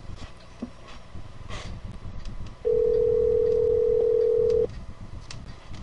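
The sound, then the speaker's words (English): A telephone rings on the line: a single steady ringback tone lasts about two seconds, then stops, over a faint, noisy background. “Oh, it's ringing.”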